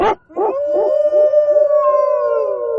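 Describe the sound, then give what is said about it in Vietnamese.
A dog gives a short, sharp bark, then a long, loud, ear-piercing howl that holds a high, steady tone with wavering pulses until the end, with no other sound around it. “Đúng lúc này một tiếng chó sủa bỗng dưng vang lên, điều muốn đâm thủng cả màng nhĩ.”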